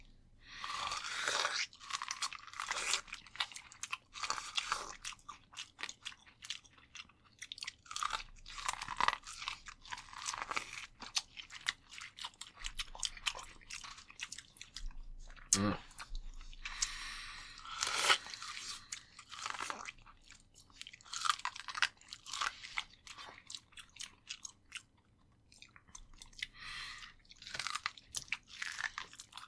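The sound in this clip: Crunchy biting and chewing of salted corn on the cob, many sharp, irregular crunches and moist chewing sounds spread across the whole stretch with brief quiet pauses and no talk.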